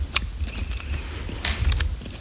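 Someone chews gummy candy up close, making soft, moist squishing bites with a few sharper smacks, all fairly faint and without talk.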